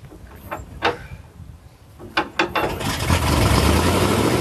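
An engine cranks and catches after petrol is poured down its carburetor. A few sharp knocks and clatters come first, then the engine settles into a steady, loud running rumble for the last second or so.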